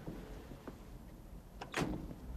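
A car door opening on a passenger's side: faint scattered clicks, then a louder, sharp latch clunk near the end, all fairly quiet.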